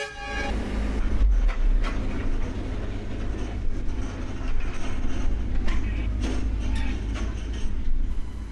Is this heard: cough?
no